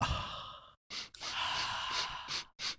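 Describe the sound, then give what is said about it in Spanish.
Breath blown into a microphone: several rough, airy bursts of loud breathy noise with short silent gaps between them. There is no speech. “¿Podéis echar el aliento en el micrófono? ¿Pero que se oiga o que no? Sí, sí, que se oiga.”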